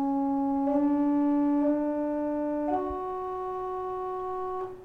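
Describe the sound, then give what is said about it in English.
Four sustained, harmonically rich musical tones play an enharmonic tetrachord. They move in two tiny steps, then a larger leap, and the last note is held longest before cutting off. “And now the enharmonic tetrachord would sound like this.”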